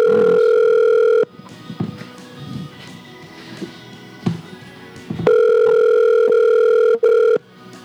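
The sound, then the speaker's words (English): Telephone line tone while a call is dialed: a loud, steady electronic tone holds, breaks off into a quieter stretch of faint clicks and rustles, then returns in a second long steady stretch with a brief dropout. “It's dialing.”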